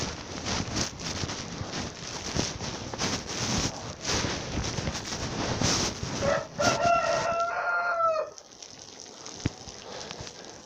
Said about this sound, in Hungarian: Kakas.